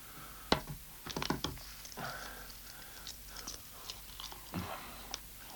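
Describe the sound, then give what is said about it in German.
Someone eats a hard-boiled egg, with soft, quiet chewing and a few sharper bites early on, followed by faint, irregular mouth sounds. “Ich habe auch Hunger. Möchtest du vielleicht ein hartes Ei? Ja, woher damit? Ja. Danke.”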